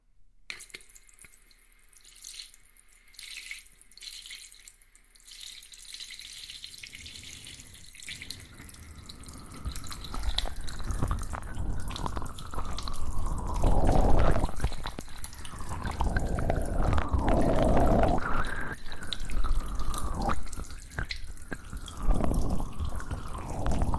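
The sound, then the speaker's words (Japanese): Water running from a tap and dripping while something is rinsed. It begins quiet with scattered light drips, then swells into a loud, steady, splashing gush that continues to the end. “流しますね。”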